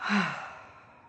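Relaxed exhale during a guided breathing exercise: one soft, breathy sigh that swells briefly at the start and then trails away gradually, with no talk.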